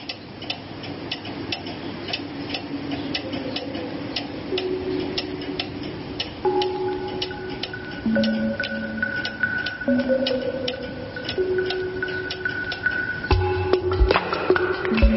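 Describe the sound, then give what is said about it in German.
A radio show jingle built on a steady clock-like ticking, with sustained synthesized tones stepping in one after another. It closes with a few louder, punchier hits. “es gibt ja einen schönen Jingle, den werden wir einfach nochmal hören, den wir auch direkt zu Beginn gehört haben.”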